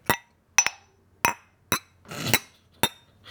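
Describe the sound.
Drinking glasses clinking and rubbing together, a sharp series of bright glassy chinks with a longer grinding scrape near the end, loud against near silence.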